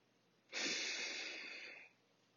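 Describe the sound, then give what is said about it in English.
During a guided group breathing exercise, a deep breath is drawn in. It is a single soft, airy inhale lasting over a second and fading gently at the end. “And so I'd like us all to take a deep breath together.”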